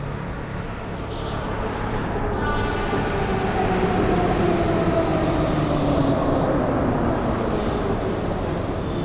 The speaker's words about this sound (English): That's our train.